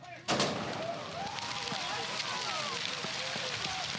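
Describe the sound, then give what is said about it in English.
One sharp starting-gun crack opens a cross-country ski race in below-freezing weather with hundreds of skiers and spectators, followed by a sustained wash of crowd cheering and voices. “hundreds of skiers and spectators waited for the starting gun at the 50th anniversary of North America's largest cross-country ski race”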